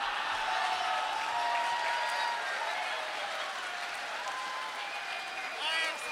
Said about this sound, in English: No, don't applaud that. No. Don't applaud for that.